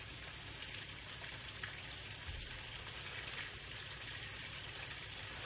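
Meat frying in a pan, giving a faint, steady sizzling hiss with light crackle and no pauses.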